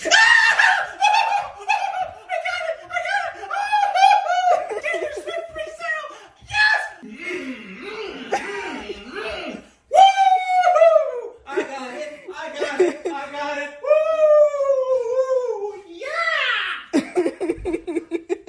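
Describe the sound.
A man screams and shrieks with joy after getting concert tickets for his family. The loud, high-pitched excited yelling rises and falls in pitch, with laughter-like bursts and a few brief pauses before each outburst.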